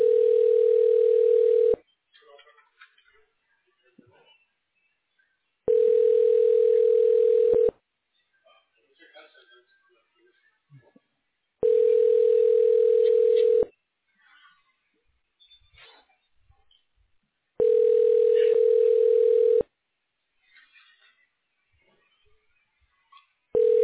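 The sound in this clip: A telephone line tone plays while a call is being connected through a business phone system: steady, even-pitched tone bursts of about two seconds each, repeating after roughly four-second gaps, with faint scattered noise between them.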